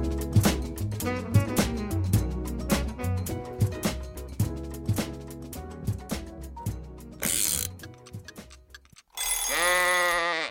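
Radio show jingle for a Thai program about the Pomodoro technique: rhythmic, punchy musical notes with a steady beat, then a noisy burst and a loud, wavering bleat-like cry at the end.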